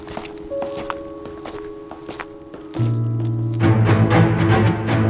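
Footsteps of two people walking side by side toward a huge oak tree, with many light, regular steps over a sustained musical background that grows louder partway through.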